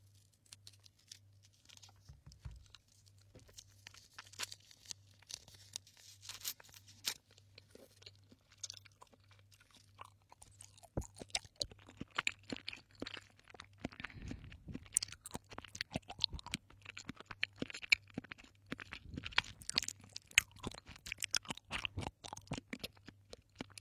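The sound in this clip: Someone chews soft, chewy lactic-acid-flavoured sweets, producing many faint, wet, sticky chewing and squishing sounds in an irregular rhythm that grows busier in the second half.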